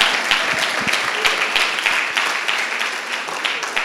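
A church audience applauds to welcome two deacons, a couple, with steady, dense clapping that runs loud and even from start to finish.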